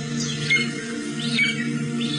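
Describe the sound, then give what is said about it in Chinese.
Calls of a crested ibis: three short, arching chirps rise and fall at intervals over a steady low hum. “这是朱黄的声音”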